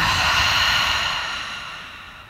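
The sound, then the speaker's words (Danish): Deep nasal breathing during a yoga session, heard as a long, airy, full exhale that softly fades away, with no talking. “Tag så den her dybe indånding gennem næsen. Og den fulde udånding.”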